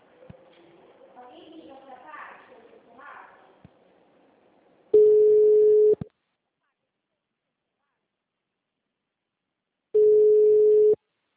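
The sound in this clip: Ringback tone of an outgoing phone call: two long, steady mid-pitched tones spaced well apart, following faint talk at the start.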